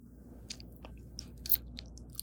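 Chewing of composite deli meat made from mashed-up deli meats, with soft wet clicks and smacks in an uneven rhythm and a louder crunchy burst midway, no talk.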